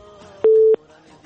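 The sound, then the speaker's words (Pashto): A single steady telephone busy-signal beep after a call is cut off, clear and mid-pitched, followed by faint background hum. “فکر کوم چې اړیکه نشته اړیکه له بده مرغه پرې شوې ده”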